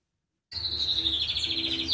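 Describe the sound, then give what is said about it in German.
Birds chirping in an aviary with a cockatoo. A continuous high, bright twittering starts abruptly after a moment of silence and holds steady over a low background hum. “In der Vogelvoliere streckt Eva Maria Summ dem Kakadu Nelson einen Kürbiskern her.”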